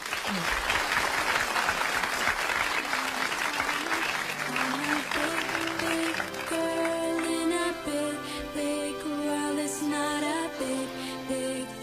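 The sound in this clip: Dense, lively crowd applause lasts about six seconds, then gives way to gentle tonal music that carries on to the end.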